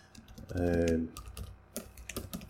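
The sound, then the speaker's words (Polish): Keystrokes on a computer keyboard as someone types a Skype password: a brief voiced sound comes first, then a few quiet, irregular clicks. “Tak, to co słyszeliście, to jest wpisywanie hasła do Skype'a, tajnego bardzo oczywiście.”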